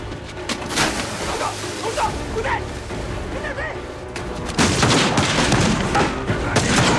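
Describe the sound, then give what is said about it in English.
Riflemen firing at a house, with bullets hitting the walls: a few sharp shots early on, then a louder, denser burst of cracks and impacts through the second half. “As Ogryn and his friends scurry back inside the house, bullets spray the walls around them.”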